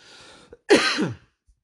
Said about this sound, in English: had a sort of cough, as you could hear, dry cough